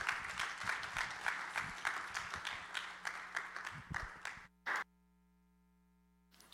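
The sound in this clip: Applause welcomes a speaker at a global outreach celebration, with many individual claps audible in a loose rhythm that thins and stops. A last short burst follows, then only a faint steady hum remains.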